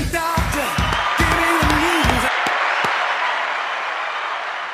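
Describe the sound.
A studio audience applauds and cheers: loud, dense clapping mixed with whoops and yells that continues throughout and eases slightly toward the end.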